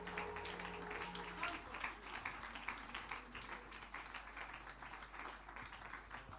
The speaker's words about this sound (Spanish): Ese aplauso de alabanza al Señor.